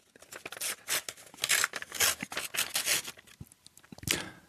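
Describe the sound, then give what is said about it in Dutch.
Paper tearing and rustling as an envelope holding a question card is opened during a quiz, a run of many crisp, fairly faint crinkling and ripping bursts with no talking. “pak ik een envelop waar een vraag in zit. En dan gaan we eens even kijken wat erin zit.”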